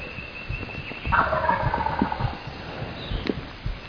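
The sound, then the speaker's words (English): A wild turkey gobbles on the roost with a loud, rattling, descending gobble near the middle, surrounded by fainter, scattered short calls and background noise. “count the number of times that he gobbled while he was on the roost, but it was probably about 50 times, because he started gobbling a few minutes after 6”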